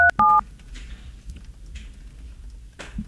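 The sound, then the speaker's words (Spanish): Telephone tones sound as a call is transferred: two brief, loud electronic beeps right at the start, followed by a faint, quiet line hiss. “Llamada transferida a Claro.”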